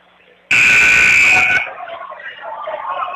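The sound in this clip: A basketball game buzzer gives a loud, harsh, sustained electronic tone lasting about a second, then cuts off into quieter background noise.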